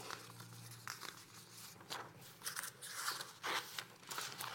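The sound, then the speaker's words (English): Scissors snip through paper notes, faint and quiet, with a series of irregular cuts mixed with soft crinkling and rustling of the sheets. “Let me cut up my notes real quick.”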